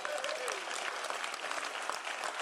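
An audience claps in a dense, steady wash of applause from many hands, fairly faint and sustained for the whole stretch.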